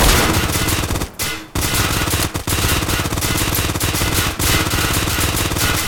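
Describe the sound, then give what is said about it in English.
SMG gunfire in a video game, loud and relentless rapid automatic bursts with a few short pauses, the longest near the start, and no voices. “So, the reason I'm not shooting as fast as him is because this weapon is slow and it's slower to reload.”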